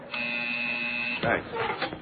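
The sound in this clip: A door buzzer at a secured entrance gives a steady electric buzz for about a second. It cuts off abruptly, and a voice starts talking right after.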